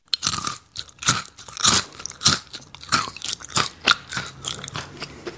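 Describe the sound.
Crisp biting and chewing of crackers sprinkled with coconut: many sharp, dry crunches come in an irregular rhythm, loud and alone without talk.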